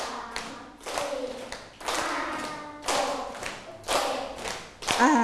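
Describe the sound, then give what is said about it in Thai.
A group claps hands in time with a counted beat, producing many sharp claps in a regular rhythm. A voice counts aloud over the clapping. “อีกครั้งหนึ่งขอนับช้ากว่านี้นะคะเพื่อนๆปรบไม่ทันแล้วเอาใหม่นะคะ”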